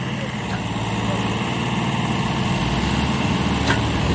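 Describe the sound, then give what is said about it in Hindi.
Tractor engine reversing a trolley in back gear on wet ground, a steady, rumbling chug that stays loud and even throughout. “दोबारा से फिर back gear में trolley को चलाते हुए tractor जो है दिशा दशा भूल रहे हैं अपनी गिल्ले की वजह से।”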